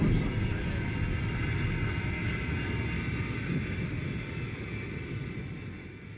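An airplane taxis to a stop with a steady engine roar. Its high hiss drops away after a couple of seconds, and the low drone then slowly fades.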